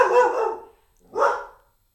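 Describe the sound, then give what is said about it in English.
A border collie barks twice: a loud, drawn-out first bark, a short gap, then a second, shorter bark, with no talk around them. “Well, I think you just got a sample of a greeting from my dog, Charlie Brown. He's a border collie, and I guess he wanted to be part of the podcast as well.”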